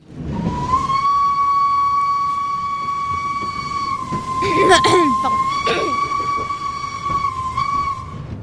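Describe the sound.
The Hogwarts Express steam train departs in a sound effect: a long, loud, steady steam whistle with bright overtones sounds alone, broken midway by a burst of hissing steam before the whistle resumes.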